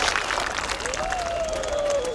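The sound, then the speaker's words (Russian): An audience applauds a maestro just back from Milan, a steady wash of clapping that holds at an even level throughout. “Маэстро только что из Милана, поэтому поддержим его аплодисментами.”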